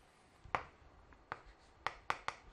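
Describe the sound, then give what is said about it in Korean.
Pen strokes on a board as a cosine graph is sketched quickly by hand: a few short, sharp taps and scrapes spaced irregularly, faint and without talk. “일단은 코사인 x를 0부터 2파이까지만 좀 빨리 그려보죠. 그럼 여기는 칠해져 있고 여기는 뚫어져 있던, 선생님 이렇게 약식으로 한번 그려볼게요.”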